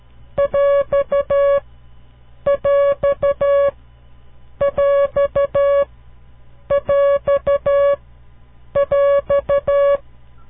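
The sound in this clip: A coded beeping tone signal stands for the separator in a mixed number: five evenly spaced bursts, each a quick run of short, same-pitched electronic pulses, with nothing else heard.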